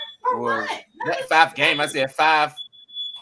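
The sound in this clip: A house smoke alarm gives off a thin, steady high-pitched beep that is faint at the very start and clearer at the end, while a person talks over most of it.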